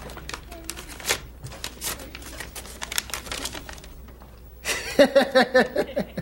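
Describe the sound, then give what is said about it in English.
Paper crinkles and tears as a letter envelope is opened, a quick run of crisp rustles and snaps that ends in a few louder bursts with brief voiced sounds. “Here's a letter for you, Grady. Oh, yeah, open it up and read it.”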